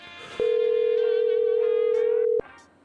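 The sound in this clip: A steady telephone tone drones at one pitch for about two seconds, loud and unbroken over a faint background, then cuts off abruptly.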